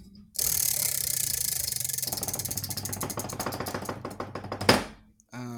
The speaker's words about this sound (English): Oh, all right, here we go. Spinning the wheel.